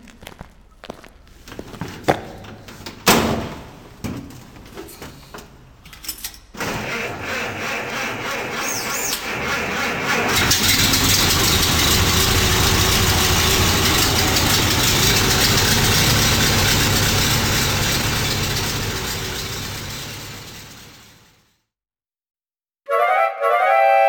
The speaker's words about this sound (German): Ich würde ja zu gern mal hören, wie der Motor klingt. Dann schmeiße ich ihn gerne mal für euch an.